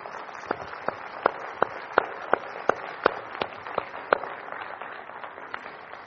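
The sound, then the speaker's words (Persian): An audience claps in unison as applause for the Lord, a steady run of many evenly spaced, crisp claps that fade slightly toward the end. “یک دست محکم برای خداوندمون بزنید.”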